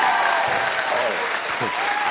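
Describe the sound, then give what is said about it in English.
Studio audience cheering and applauding as a guest is welcomed onto a show, a dense, steady wash of clapping with voices rising over it. “I love the audience response. How you doing, guys? All right. That's our audience. Thank you, audience, for the cheering.”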